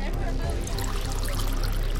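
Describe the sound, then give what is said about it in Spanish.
Wine poured into a glass: a steady liquid trickle and splash running continuously through the whole moment, fairly loud. “Katy cortó fue hasta la mesa y se sirvió una copa de vino.”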